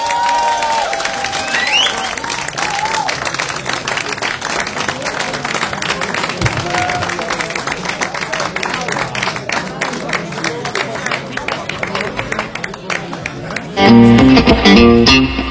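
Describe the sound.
Warm audience applause for a blues band at a blues café concert: dense, sustained clapping with some cheering for about fourteen seconds, then music begins at the very end.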